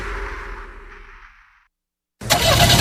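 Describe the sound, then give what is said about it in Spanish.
A car engine needing an oil change starts abruptly after an earlier sound fades into a moment of silence. It bursts in loud and rough, running continuously to the end. “Motor necesita cambio de aceite.”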